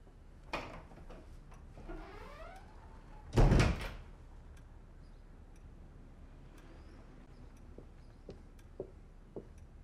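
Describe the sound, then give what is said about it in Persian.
A door is opened: a few soft clicks and movements lead into one loud thunk midway, followed by quieter ticks and faint rustling. “درو باز کن و کتشو بگیر.”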